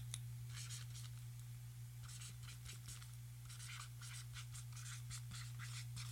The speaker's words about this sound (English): One bag. I'm going to have to write a name on this.